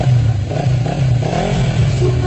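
Motorcycle engine revving in a loud, continuous low drone that wavers slightly in pitch and intensity, with no voices over it.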